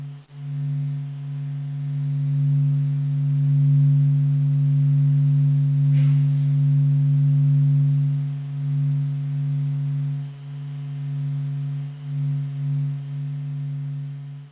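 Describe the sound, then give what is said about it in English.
A sonification of the sun's vibrations, observed over 40 days and turned into audible sound, forms a steady, low droning hum with stacked harmonic tones. It holds nearly constant throughout, with one brief click near the middle. “for the full effect, we have added the sound of the sun, which was created by observing the vibrations from the sun over 40 days and transformed into audible sound.”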